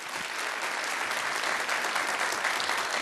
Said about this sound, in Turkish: Evet, çok teşekkürler şahane orkestramız için. Koca bir alkış istiyoruz.